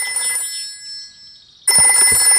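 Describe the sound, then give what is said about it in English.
A telephone rings with a bright, trilling electronic tone. One ring fades away at the start, and after a short quiet gap a second loud burst of ringing begins. “I'll ring Granny Pig.”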